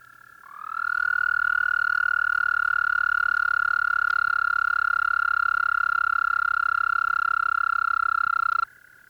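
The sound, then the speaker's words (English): Common toads trill from the shallows in one long, loud, steady call that holds an even pitch for about eight seconds before it stops abruptly. “The more melodious trills of the common toads start up from the shallows.”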